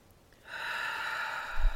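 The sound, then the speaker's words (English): A deep breath drawn in through the nose, a soft, steady breathy rush lasting about a second and a half, heard alone after a quiet moment. “And then again, take another deep breath in through the nose.”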